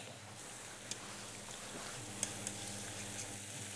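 Food deep-frying in oil that is not yet hot enough, a faint, steady sizzle with a few small crackles and pops scattered through.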